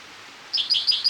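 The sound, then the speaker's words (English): A spotted towhee call: four quick, high-pitched chirps in close succession after a brief hush. They are clear but fairly soft, with no talk. “for spotted towhee number one”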